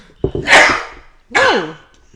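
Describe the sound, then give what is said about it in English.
A cough-sneeze: one sharp, loud burst of breathy noise, then after a short pause a brief voiced sound with a wavering pitch. “What was that? It's a cough sneeze.”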